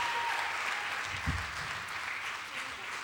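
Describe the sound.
Audience applause for a performer during an opening worship service, soft steady clapping throughout with a faint voice briefly heard under it.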